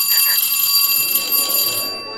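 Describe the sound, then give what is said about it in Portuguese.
A telephone rings in a call to a mental health institute, a high, steady electronic ringing tone with a couple of quick pulses at the start, fading away near the end. “Você liga para o hospício e atende a secretária eletrônica dizendo: Obrigado por ligar para o Instituto de Saúde Mental”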